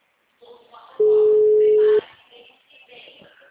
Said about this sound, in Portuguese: Tô ligando pra ele ver logo a mensagem.